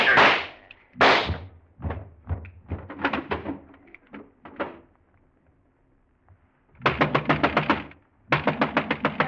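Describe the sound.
Gunshots in a dramatic scene: two sharp cracks open, followed by scattered thuds, then two fast bursts of closely spaced shots near the end.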